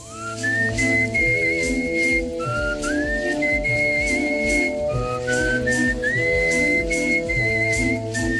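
Competitive art whistling of a melody by a female world-championship semifinalist: clear, high, sustained notes with gliding slides between them, loud throughout over a steady instrumental accompaniment.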